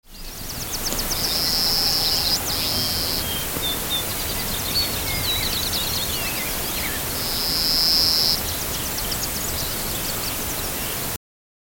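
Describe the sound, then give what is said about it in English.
Grasshopper sparrow song: two high, thin, insect-like buzzes, each about a second long and separated by a pause, over a steady background hiss with faint, scattered chirps. “grasshopper sparrow.”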